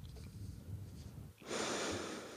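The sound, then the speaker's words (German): Breathing for relaxation, with a quiet, low opening stretch followed by a strong, airy breath out through the mouth that holds steady to the end. “Und dann atme einmal ganz tief ein, durch den Mund wieder ausatmen.”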